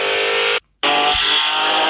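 A Ford car engine roars at full throttle as a loud, steady, high-pitched drone. The sound cuts out for a brief moment, then resumes at the same level.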